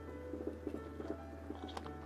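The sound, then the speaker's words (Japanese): Soft, moist chewing of a strawberry, with many small rhythmic bites and mouth clicks over a low steady hum. “いちご代わりにいただきます。”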